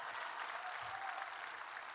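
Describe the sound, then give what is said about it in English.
Faint audience applause during a lively talk, a soft, even patter of many hands that holds steady throughout with no voices over it. “I deserve some applause for that. Yes, that deserves that.”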